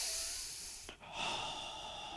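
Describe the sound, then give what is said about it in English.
Heavy breathing imitated by a voice, acting out a tense moment for a character standing surrounded by a group. Two breathy rushes of air are heard, separated by a brief pause. “it's an amazing scene because he kind of starts to, you hear his breath.”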